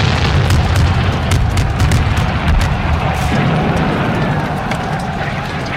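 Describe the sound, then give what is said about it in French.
Mines blow up beneath German trenches in a First World War Easter Monday dawn assault on a ridge: a continuous, heavy, deep roaring rumble with crackling texture. It stays loud and steady throughout, without distinct separate blasts. “Il paraît qu'ils ont entendu le boom jusqu'en Angleterre. Le départ était extraordinaire parce qu'à ce moment-là, on a fait sauter les tranchées allemandes par des mines”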